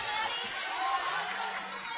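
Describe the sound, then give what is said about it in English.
Basketball dribbled in the final minute of a girls' high school game as a team runs out the clock, steady bouncing under continuous crowd noise and commentary. “They'll try to dribble this out.”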